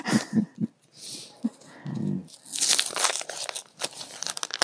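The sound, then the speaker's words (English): Tape crackles and tears as strips are pulled to patch small broken plates for a soil sponge demonstration. Rough crinkling bursts sound in uneven spurts, growing louder and denser in the second half. “I'm taping up little broken plates here.”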